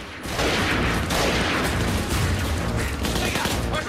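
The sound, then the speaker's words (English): Soldiers fire on closing insurgents in a dense, continuous volley of gunfire that stays loud and unbroken throughout. “Fire! Fire! The insurgents are closing in.”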